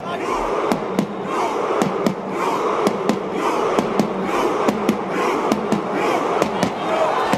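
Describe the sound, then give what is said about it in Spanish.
Norwegian World Cup rowing celebration after a national team match: sharp drum beats struck by players at a steady, even pulse, many in a row, over a loud, continuous crowd roar. “Otro de los sonidos del Mundial ha sido el del remo noruego. Sonaba después de cada partido de la selección noruega con golpes de tambor a manos de Ødegaard o Haaland.”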